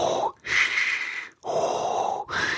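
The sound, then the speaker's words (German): A voice imitates heavy, rasping Darth Vader-style breathing, with a few drawn-out breaths alternating in and out, each loud and hoarse with short pauses between. “Ja, nicht so ein Schnarchen, so ein, ja, die Atemgeräusche, ne?”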